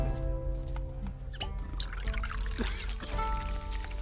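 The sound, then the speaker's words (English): Smoked whiskey is poured from a bottle into a tumbler, about two fingers' worth: a steady, continuous trickling pour at an even level for the whole clip, with no voices. “Pours you out like two fingers in a tumbler.”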